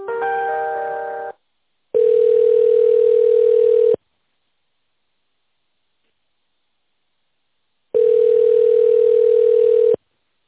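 A telephone ringback tone plays while a call is being transferred to another department. A brief multi-tone chirp comes first, then two steady, even-pitched tones of about two seconds each, separated by a long silence.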